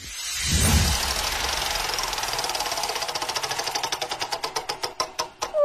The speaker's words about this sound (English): on Thursday, I'll be spinning the wheel a little something like this.